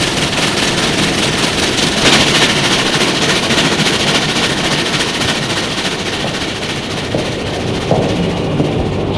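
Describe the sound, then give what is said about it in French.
A train leaves the crowded Perrache railway station, bound for Brussels. Its loud, steady rumble and rapid, rhythmic rattling fill the whole stretch without a pause. “Il y a du monde dans la gare. Train se dirige vers la sortie de la gare.”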